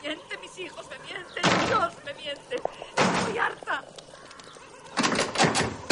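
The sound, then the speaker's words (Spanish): A door slams shut in a house, with three loud, sharp bangs spaced apart and quieter rustling between them. “prohíbo dar portazos.”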